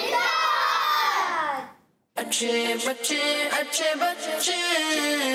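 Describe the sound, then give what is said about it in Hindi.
Children's voices chanting the slogan Dawat-e-Islami together, loud and tuneful, in two bursts separated by a short silence, the second longer with shifting syllables. “आखिर में सब मिलकर नारा लगाएंगे दावत इस्लामी।”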